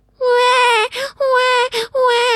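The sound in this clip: An adult voice imitates a crying baby with three loud, sustained, high-pitched wails, each broken off by a short gasping pause, the last one cut off at the end.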